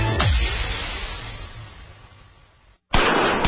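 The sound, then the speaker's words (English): A .44 Magnum handgun fires a gunshot: a sharp, loud report whose rumble fades away over about two seconds, then a brief silence and another abrupt, loud burst near the end. “That's the sound of a 44 Magnum and Traumamax.”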